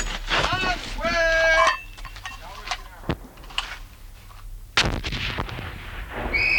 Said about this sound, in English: Remove safety clip. Pull a pin, twist, and pull. Prepare to throw. Throw a grenade.